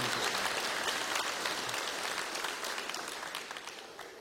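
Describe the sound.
Congregation applauding to welcome a speaker at a morning church service. Dense, sustained clapping starts loud and gradually tapers off toward the end.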